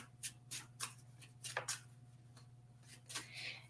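Chakra Healing Oracle cards being shuffled and pulled for a three-card spread: faint, scattered soft flicks and snaps of card handling at an irregular pace.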